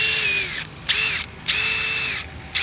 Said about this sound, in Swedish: Här har du en skruvknack. Kan du få igång den?